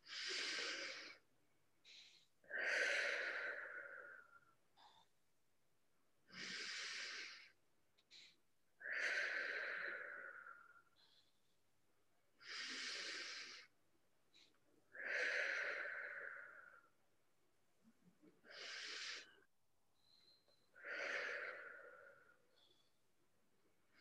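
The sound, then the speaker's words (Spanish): Slow, deep breathing during a guided meditation: four cycles of a long airy inhale, a quiet held pause and a long exhale, each breath a soft, faint rush of air separated by stretches of near silence. “profundas, inhalando en un tiempo, sosteniendo en un tiempo y soltando en un tiempo y lo vamos a hacer cuatro veces, una por cada mundo. Empezamos.”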